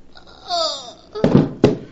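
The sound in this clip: Gunshots ring out in a radio drama, a few sharp, loud bangs in quick succession that come right after a woman's strained cry.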